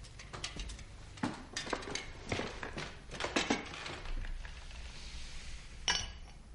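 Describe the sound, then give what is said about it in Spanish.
Glass clinking from a liquor service of glasses and a decanter set on a table: a series of sharp, bright clinks and light knocks at irregular intervals over a soft background hiss. “Él se sienta a una mesa y se acerca el servicio de licor preparado en ella.”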